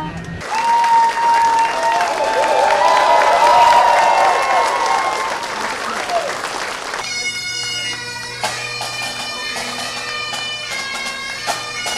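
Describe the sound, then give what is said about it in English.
A crowd of family and friends cheers and applauds at Chicago's Midway airport for a homecoming of returning veterans, a loud sustained roar of clapping and shouting voices that keeps going without a break. “Midway is filled with family and friends. Cheering”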